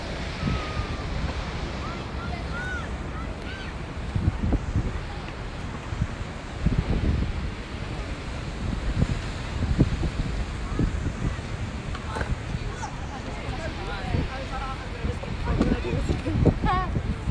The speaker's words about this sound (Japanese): ちょっと波の音がうるさいかな波の音をちょっと BGM にねライブしたいなと思ってちょっと今ビーチに来てます